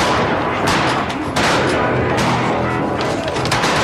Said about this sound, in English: Look, they're shooting buffalo.